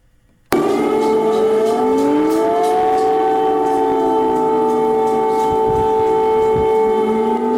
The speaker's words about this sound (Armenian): Ուկրաինայի մայրաքաղաք Կիևի բնակիչներին այսօր արթնացրել է օթային տագնապի մասին ահազանգող շրջակը։